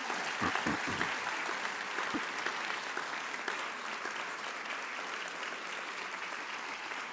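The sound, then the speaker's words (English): Sustained applause from a remote audience at a foundation gathering, steady clapping that keeps an even level, slightly livelier at the start. “So it's important to just acknowledge that again, and I hope you'll applaud for Diana and for that team and the advisory board once more.”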